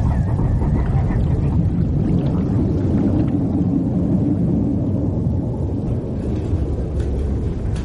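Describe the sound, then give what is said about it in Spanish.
A fishing boat's engine drones underwater as the vessel sails at sea. The low, dense rumble carries a hiss above it and runs steady and unbroken throughout. “En un plano submarino, el barco navega dejando una estela bajo la superficie.”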